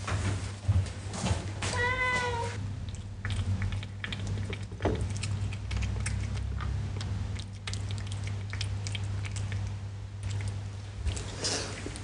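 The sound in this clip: A pet cat eating fish gives one short meow early on, then soft wet chewing and smacking sounds follow over a steady low hum.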